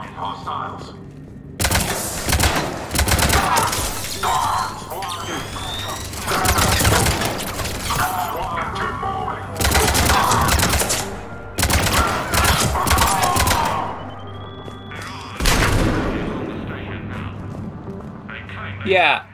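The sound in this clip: Gunfire in a video game: several loud, dense volleys of rapid shots break out across the stretch, with quieter gaps between them and voices heard at times under the shooting.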